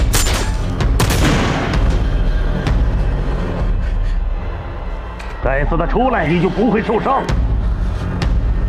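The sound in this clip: Gunfire during an armed confrontation between police and several suspects: a few sharp, loud cracks and booms in the first seconds over dense, noisy commotion, followed by a man shouting.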